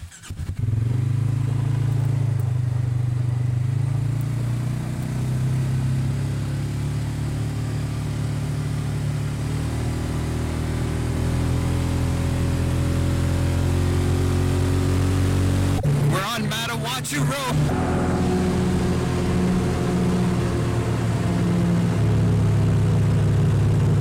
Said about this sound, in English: a Yamaha Kodiak 700. ATV, all terrain vehicle.